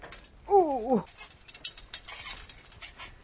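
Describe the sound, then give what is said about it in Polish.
A bicycle is ridden in circles in a cellar, giving a brief squeaky, wavering squeal early on, followed by faint mechanical ticking and clicking. “To wyprowadzam rower i tu kółka robię. Zrobię parę kółek w kółko.”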